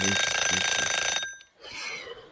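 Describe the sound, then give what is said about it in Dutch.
An alarm clock rings in a loud, rapidly pulsing metallic clatter, then stops abruptly after a little over a second. Softer, noisy rustling follows. “dat gaat de wekker alweer.”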